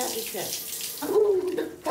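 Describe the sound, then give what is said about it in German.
Water runs from a tap as a carer washes a person's hair, a steady hiss that swells after the first second, with a faint voice briefly heard. “Ich wasche Ihnen jetzt die Haare auch einmal mit, ne?”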